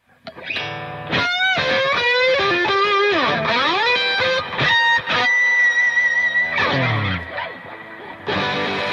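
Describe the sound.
Electric guitar played with heavy distortion and effects: loud sustained chords and notes with sliding pitch sweeps, short breaks between phrases, and no voices.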